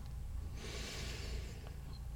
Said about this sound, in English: simply begin with a nice, deep, gentle breath in.